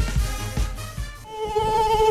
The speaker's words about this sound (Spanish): Ya llega el buen tiempo y con él los visitantes no deseados en tu hogar, las moscas y los mosquitos.